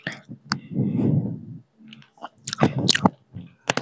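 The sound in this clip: Chewing and crunching of tasty food, with a few crisp bites and wet, squishy mastication in irregular bursts separated by short pauses, fairly quiet throughout.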